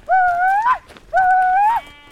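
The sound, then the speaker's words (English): Two long, loud bleats from Churro sheep in a flock being driven up a mountain to summer camp, each wavering call lasting over half a second, separated by a short pause. “Navajo weavers are bringing a flock of Churro sheep up the mountains to a summer sheep camp on top.”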